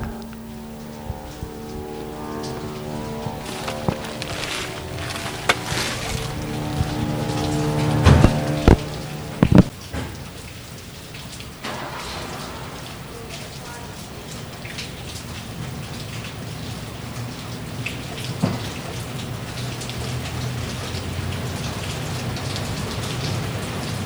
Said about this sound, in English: The first rain in 3 weeks.